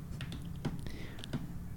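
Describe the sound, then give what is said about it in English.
Typing on a computer keyboard, a few faint, scattered keystroke clicks at an uneven rhythm over quiet background noise. “Hold on, I'm trying to type and talk at this time.”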